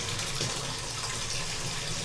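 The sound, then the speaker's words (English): Hot water runs from a tap into a bath in a steady, even rush with a soft hiss, unbroken for the whole moment and with no talking. “With the hot water again. Oh, yeah. Get that on my back.”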